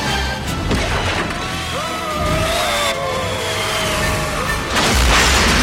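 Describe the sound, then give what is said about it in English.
Vehicles crash and explode into a ball of flame in a dense, continuous roar of rumbling noise. Heavy booms hit at intervals, and thin whistling tones run through the din. “The commandos crash and are enveloped in a ball of flame.”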